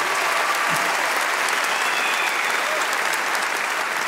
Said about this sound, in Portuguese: Milagre, uma salva de palmas.